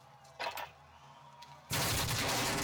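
Gunfire from a gun in the video game Warzone. Quiet game ambience with a few faint bumps gives way to a sudden, loud, sustained noisy burst that runs to the end.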